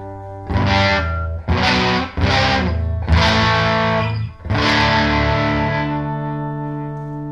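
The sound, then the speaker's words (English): Gritty overdrive distortion from a simple overdrive effect: five loud, harmonically rich distorted notes or chords struck in turn. The last one sustains and slowly fades. “It works. I kind of like the sound of the overdrive. I was messing around with it earlier. I dig the kind of like the gritty simpleness of it.”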